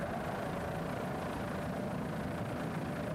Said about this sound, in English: Herbert Racing, a 33-foot well-crafted scarab.